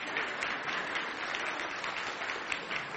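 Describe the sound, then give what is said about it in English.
A church audience clapping to mark a pastor's fourth anniversary, a steady, full wash of many hands applauding at an even level throughout, with no pauses. “and you're clapping to say, congratulations, church, we've put up with them.”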